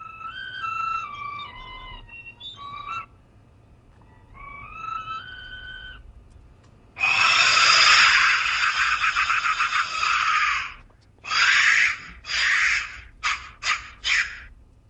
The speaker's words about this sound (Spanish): Sonido percutiendo el interior de uno de estos silbatos intactos de la muerte.